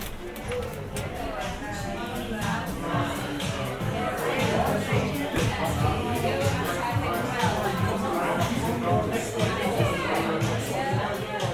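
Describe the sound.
Noisy crowd chatter, a dense, continuous babble of many overlapping voices with scattered sharp clicks and knocks, staying steady and loud for around eleven seconds.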